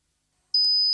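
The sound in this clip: A simulated tinnitus ringing in the ears: a thin, high-pitched steady tone begins halfway through and holds unbroken to the end, with a brief noisy burst just after it starts.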